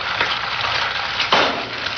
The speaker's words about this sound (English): cracking an egg on a cast iron pan